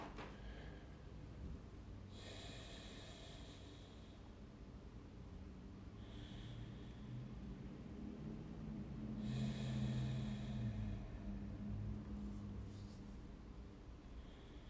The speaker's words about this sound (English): So I take a few breaths and I call to it like I would call to a friend inside of me.